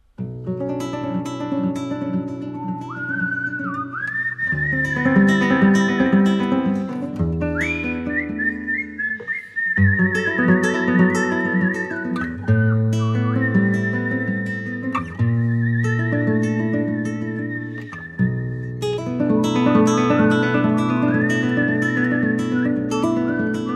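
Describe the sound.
Human whistling carries a melody of long sustained and gliding notes, loud over a steady instrumental accompaniment with a rhythmic beat.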